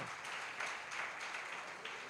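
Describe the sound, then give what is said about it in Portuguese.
A church audience applauds in praise, a steady mass of hand claps running unbroken from start to finish, fairly faint overall and without any single voice rising above it. “Aplauda o Senhor Jesus, irmão. Aplauda.”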